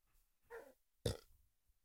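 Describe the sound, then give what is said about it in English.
A small, brief burp into the microphone, short and throaty, with a softer murmur a moment before it and quiet surroundings. “You just burp on mic? It was a little tiny burp, dude.”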